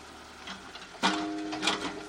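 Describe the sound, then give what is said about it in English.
A mechanical digger at work in a cemetery: a faint, busy clatter of clicks that gives way partway through to a louder whirring, humming machine sound with steady tones and repeated clanks. “A mechanical digger is busy at work in the cemetery.”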